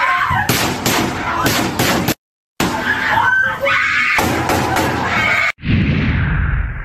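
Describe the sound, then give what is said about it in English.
Panicked screaming and sharp bangs of gunfire fill a school shooting recorded on phones by students inside a classroom, loud and chaotic, broken by a short dead-silent gap. “Here is the footage from inside room 1215 as terrified students recorded the shooting.”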